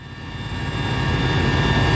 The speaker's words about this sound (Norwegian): Fra et helikopter ser statsminister Pedro Sánchez på brannen.